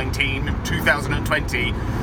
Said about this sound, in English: In case you're wondering, yes, I am in the car again. In case you're also wondering, yes, this is hands-free, but thank you very much for your concern.